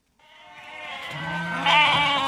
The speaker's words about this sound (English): These sheep are just going up a runway. They've got a wooden fence on one side and a big old dry stone